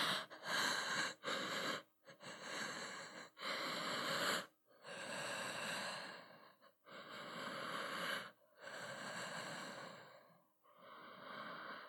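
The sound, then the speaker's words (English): A person breathes slowly and deliberately, with a long series of breathy, slightly wheezy inhales and exhales separated by short pauses, fairly quiet and with no talk. “Understand. I'll breathe slowly.”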